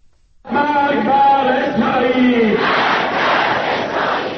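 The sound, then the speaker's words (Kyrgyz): Crowd of demonstrators in Tehran on Quds Day chanting "death to Israel": loud, unified voices in a drawn-out rhythmic chant that swells into a broad roar of shouting crowd noise. “Израилге өлүм деп кыйкырып жатышты Тегерандагы демонстранттар.”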